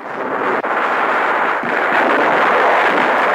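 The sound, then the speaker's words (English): Navy artillery shells bursting during a wartime beach landing under fire, a dense, loud, continuous roar of blasts and noise with a couple of sharp breaks, and no voices. “Navy shells drop in the background.”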